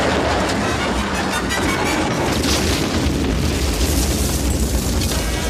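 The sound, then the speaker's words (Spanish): A truck overturning and exploding during a street shootout: a loud, dense roar of blast and rumble with crackling texture that stays steady and full throughout, with no pauses. “El camión vuelca y estalla.”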